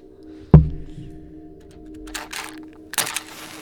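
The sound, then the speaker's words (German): A switch is pressed, giving one sharp, loud click near the start, followed by quieter rustling and a few softer knocks. “Ich werde ihn betätigen. Führt meine Hand zum Schalter. Ich drücke ihn.”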